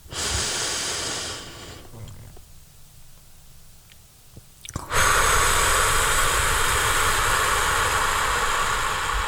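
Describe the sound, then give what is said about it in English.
Slow, deep breathing in and out during a guided breathing exercise: a rush of breath noise, a quieter held stretch, then a long, steady, louder breath that runs to the end. “Breathe in for 5, hold for 3, breathe out for 9.”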